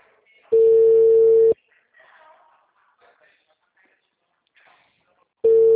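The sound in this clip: A telephone ringback tone while a call connects sounds as two loud, buzzy one-second tones separated by a long pause, with faint murmured talk in the gap.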